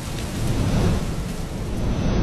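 Heavy rain roars steadily in a thunderstorm while low thunder rumbles beneath it. The sound is loud and continuous throughout, with no voices.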